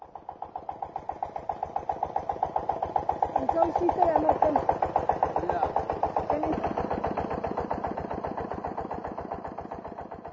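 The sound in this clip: A motor fitted on a farm in place of a pump chugs steadily with rapid, even pulses and a low-to-mid throbbing tone. A voice is briefly heard over the engine.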